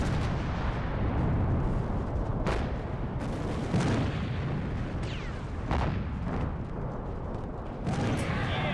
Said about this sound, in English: On November 20th, 1943, the naval bombardment of Tarawa begins.